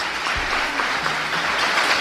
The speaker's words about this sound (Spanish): A ver, un aplauso. Que se escoite.